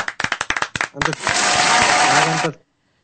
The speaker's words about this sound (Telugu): అది అంటే వాళ్ళు రెడీగా చేతులు పెట్టున్నారు క్లాప్స్ కొట్టడానికి, అవి కొట్టేస్తున్నారు.